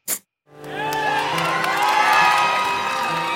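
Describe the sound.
A crowd cheers and whoops at the launch of a live digital-industry event. After a short blip and a brief silence, the cheering swells into a loud, sustained roar of shouting voices.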